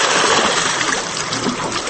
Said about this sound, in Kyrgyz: Азыр дөңгөлөктө орнотулган 3 челек 1 мүнөттө 20 литр суу сузуп нолго куюп турат.